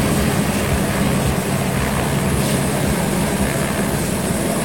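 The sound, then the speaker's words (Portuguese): A GTA helicopter stands ready to carry a heart-attack patient to Aracaju, its engine giving a loud, steady, unbroken roar that fills the whole clip with no other sounds. “E aí esse barulho, né? Depois de ouvirmos aí o médico Dr. Agamenon, esse barulho já era o GTA aí já pronto para fazer a transferência.”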